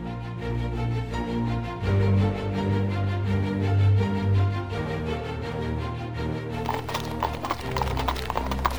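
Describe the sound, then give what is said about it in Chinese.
Clip-clop of a horse-drawn carriage trotting briskly along a tree-lined avenue, many steady hoof beats set against sustained background music, with the hooves sounding crisper near the end. “在往奥利弗出生地的林荫大道上，一辆马车轻快地向前奔驰。”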